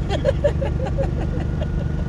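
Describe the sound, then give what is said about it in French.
Steady low engine rumble from a car labouring as it drives uphill and loses speed, a continuous drone with a few faint higher blips over it. “La voiture commence à faire du boucan aussi.”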